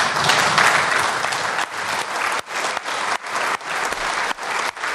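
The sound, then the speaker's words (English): Standing ovation in the Irish parliament: loud, sustained applause from many hands fills the chamber, a dense continuous clatter with brief dips in level as it goes on for several seconds. “that was the sound of some of the standing ovation there in the Dáil”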